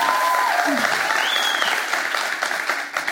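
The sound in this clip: Audience applause welcomes a pastor's wife to the stage at a church service. The clapping is dense and steady throughout and eases slightly near the end.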